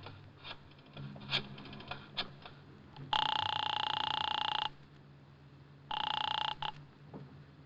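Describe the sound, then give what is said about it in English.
A telephone rings on the line after a number is dialed to a home. It comes as two steady, buzzing rings separated by a quiet gap, the first long and the second shorter, with no talking. “I got out and found a telephone. I dialed the Kelsey residence.”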